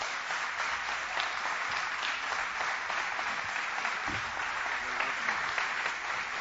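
Applause from a church audience welcoming a pastor, a dense, steady wash of clapping that holds at an even level from start to finish.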